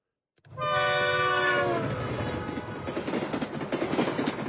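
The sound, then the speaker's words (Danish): A train sounds a loud, steady horn blast lasting just over a second, then its heavy rumble and rhythmic clattering of wheels on rails continue alone. “Det var en lidt vag version af varevognen for Speed, ikke? Det var et tog.”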